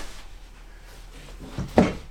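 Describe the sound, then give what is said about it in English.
A sock drawer being pulled out: quiet at first, then one brief sliding scrape that ends in a sharp knock near the end. “Pull out the sock drawer.”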